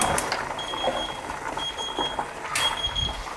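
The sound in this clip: A kitchen alarm rings while pasta cooks: a few bursts of high electronic beeping over light background clatter and rustle.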